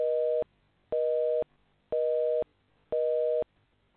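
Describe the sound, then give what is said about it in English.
A telephone line tone while calling: four evenly spaced mid-pitched beeps, each lasting about half a second with equal silent gaps between them, in a steady busy-signal pattern. “are we ringing? Are we ringing?”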